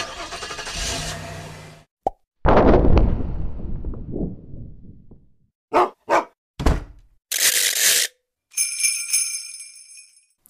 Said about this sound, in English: The cork's still popping, the rattle's back in the game, but one of the other original sounds is missing that wasn't missing before.